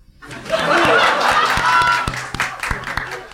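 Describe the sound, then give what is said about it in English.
Applause from a live comedy show audience in Phoenix, clapping to cast a vote. Dense clapping swells quickly and holds steady with crowd noise, then thins into scattered claps near the end. “So instead, I'm calling upon our live Phoenix audience to make the final decision tonight. If you think Ben and Olga, and therefore John, is in the right, applaud now.”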